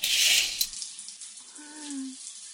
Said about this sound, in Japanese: 女子シャワー室が故障中でこっそり男子シャワー室使ってるんだから、